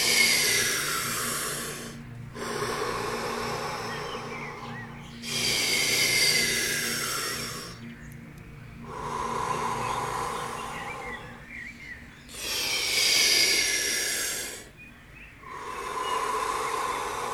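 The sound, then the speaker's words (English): Deep, forceful breaths drawn and released during a guided breathing exercise, a loud series of long, heavy inhales and exhales, each lasting about two seconds, with short quiet gaps between them and a low steady hum underneath. “Whatever you're feeling, go more into it. Go intense. Breathe into your feeling.”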